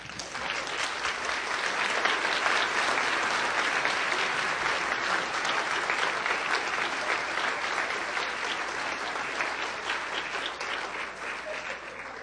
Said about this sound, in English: would you join me and put your hands together and help me welcome Pastor Charles Haddon Spurgeon.